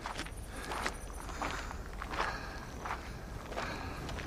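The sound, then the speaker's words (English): Footsteps of a man hiking up a gray trail beside an orange canyon, about five evenly spaced, faint crunching steps at a steady walking pace. “A man in a sun hat hikes up a gray trail beside an orange canyon.”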